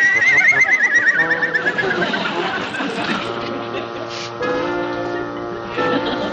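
A pony whinnying: a shrill, wavering neigh that trills for about two seconds, then gives way to softer, steadier tonal sounds.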